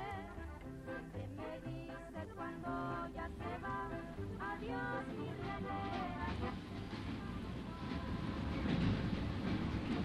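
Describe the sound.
Faint, continuous rumble of a train carriage in constant motion on an uncomfortable journey, a steady rolling wash with layered tonal sounds running throughout and growing slightly louder toward the end.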